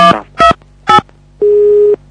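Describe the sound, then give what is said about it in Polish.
Telephone tone dialing of an internal extension number: three short, clear beeps in quick succession, then a longer steady tone after a brief pause. “Proszę wybrać tonowo numer wewnętrzny lub zaczekać na połączenie.”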